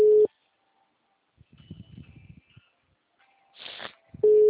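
Telephone ringing tone on a call being placed: a steady mid-pitched tone at the start and again at the end, separated by about four seconds of quiet holding faint hiss and a few soft noises.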